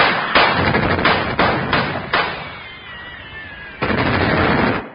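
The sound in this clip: Gunfire from soldiers shooting bullets down from a wall: a volley of sharp, loud cracks in quick succession, then a pause and a final, longer burst of shots.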